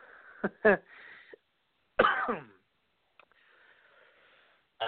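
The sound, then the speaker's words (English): A person coughs and clears the throat. A few short, harsh bursts are separated by stretches of silence, with the longest cough in the middle. “as I cough up along here”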